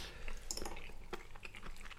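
Chewing on a beetroot and caper salad: faint, irregular wet crunches and squishy bites repeat throughout, with no talking.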